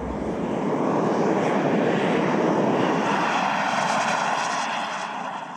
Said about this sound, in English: What you hear is a previous prototype flying high in 2023.